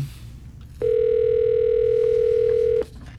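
One steady ring tone of a telephone call placed live on air in a radio ticket giveaway, held for about two seconds at a constant pitch over a low background hum.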